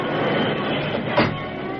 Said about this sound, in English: Then the car hit a stretch of sanded rails. Sparks flew from the wheels as it lost speed. Inches from disaster, it came to a grinding stop.